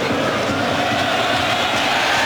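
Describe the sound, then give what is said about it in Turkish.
Football supporters of the Turkish national team applaud a player's effort during a match against Belgium. A steady, dense wash of clapping and crowd noise runs through the whole clip. “Milli takımımızı destekleyen taraftarlarımızdan da alkış alıyor Ferdi'nin çabası.”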